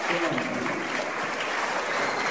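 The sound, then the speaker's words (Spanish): Applause from an audience at a religious healing service: a dense, steady wash of clapping that fills the whole clip at an even level, with no clear gaps. “Aplauso para Cristo.”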